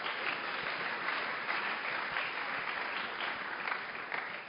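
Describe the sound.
An audience applauds in a French-speaking church service after a scripture reading, a continuous, even patter of many hands clapping without a break.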